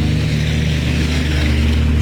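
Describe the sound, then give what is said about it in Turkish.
A water-drainage pump motor runs inside a flood-damaged building, giving off a steady, unbroken low mechanical drone with a constant hum and no change in level throughout. “İçeride de bir su tahliye sesi var. Çünkü oradan bir motor sesi de geliyor.”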